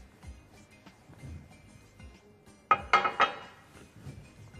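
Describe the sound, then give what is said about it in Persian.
Pomegranate seeds dropped into jelly powder in a dish give three quick, bright clattering taps in close succession, standing out above a faint, quiet background. “حالا میایم این دونه های رنگی زیبای انار رو در پودر ژله رها میکنیم.”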